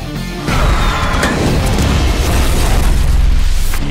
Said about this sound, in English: It's a grenade I tied to a Russian tank shell. How many people does this blow up?